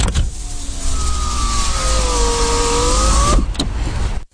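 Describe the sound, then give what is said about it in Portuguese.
A car's electric window motor whines steadily for about three seconds while the glass opens or closes. The whine ends with a couple of sharp clicks as the window stops. “Eu penso que seja ou abrir ou fechar um vidro elétrico de um carro.”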